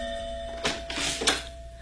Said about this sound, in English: I was at home when my doorbell rang.